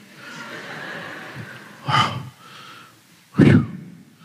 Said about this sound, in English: got to catch my breath. I'm out of shape.